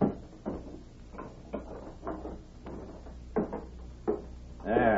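Heavy clunks and rattles as a safe holding nearly $10,000 in cash is shut and locked: several separate knocks and latch sounds, ending in a brief squeaky creak.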